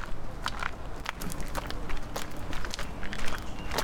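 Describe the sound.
Footsteps walking up a pedestrian footpath that is also a street in Marseille: many quick, light steps, steady and close together, over constant outdoor noise.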